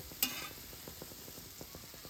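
Pancakes frying in a pan with ghee or olive oil give a faint, steady sizzle. A sharp click comes near the start, followed by soft irregular ticks and crackles.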